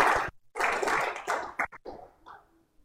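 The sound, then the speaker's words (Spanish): Congregation clapping during a church service. Short bursts of hand claps come in uneven groups with brief gaps between them, then thin out and fade. “¿Por qué no le regala una ofrenda de aplausos al Señor?”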